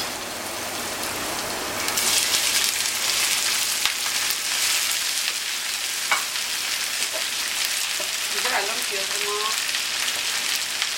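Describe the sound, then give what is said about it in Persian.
Onion frying in a hot pan with beans, a steady, dense sizzle that hisses continuously throughout, with a few faint clicks over it. “همونطور که پیاز ما داره سرخ میشه، من مایتابه رو داشتم روی حرارت تا لوبیامون هم یه تفتش بده.”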